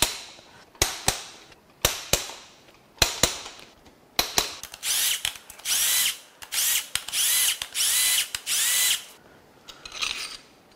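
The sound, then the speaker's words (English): A power tool unbolts the main cap bolts on an engine with no connecting rods. It fires in several short, sharp rattling bursts, then settles into longer whirring runs of steady loudness, with brief gaps between them. “Next, we're going to unbolt the main cap bolts. There's only one left.”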